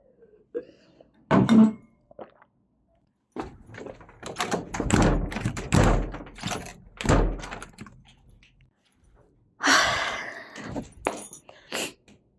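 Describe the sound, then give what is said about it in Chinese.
A door being shut gives a single solid thump near the start. People talk and whisper afterward for most of the rest. “门关上。”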